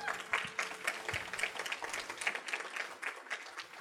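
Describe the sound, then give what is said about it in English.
Audience applause welcomes guests onto a platform at a morning gathering: a dense, steady wash of many hands clapping that stays fairly even in loudness from start to finish, with no distinct voices rising above it. “would you all join me this morning as we welcome some of our favorite people to help us share their story, Tori and Bethany Smith, to the platform. Give it up for them.”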